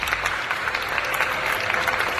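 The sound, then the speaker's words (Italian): Audience applause for Tuma: a dense, steady patter of many hands clapping, holding an even level throughout. “Quindi un applauso a Tuma”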